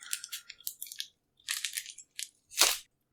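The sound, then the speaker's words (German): Sharp crinkly crunches from a knife stabbing into the bottom of a carefully wrapped item to open it. Several quick clusters of crackling come in uneven bursts with brief pauses, ending in one louder crunch. “Ist bloß die Frage, wie ich das aufbekomme. Mit dem Messer unten reinstechen.”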